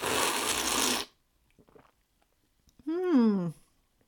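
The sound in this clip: A sip of Spindrift Blood Orange Tangerine sparkling water gives about a second of loud, hissy slurping, then a few faint small clicks and a brief voiced sound.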